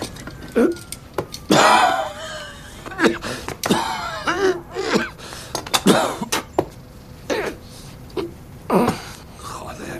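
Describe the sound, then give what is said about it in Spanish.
A man coughs up blood: many harsh, strained coughs and gasping breaths in irregular bursts, some with a moaning, voiced edge and pauses between fits. “Acaba de toser sangre. Eso no es bueno. Debería ir al médico.”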